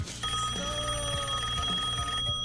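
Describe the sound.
The ringing tone of an outgoing telephone call: a steady electronic ring holding one even pitch for about two seconds, then cutting off.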